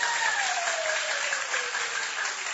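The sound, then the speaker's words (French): An audience applauds after a comedy sketch performance with a dense, continuous wash of clapping at steady loudness. A faint tone glides slowly downward beneath the applause. “Est-ce qu'on peut les acclamer, s'il vous plaît?”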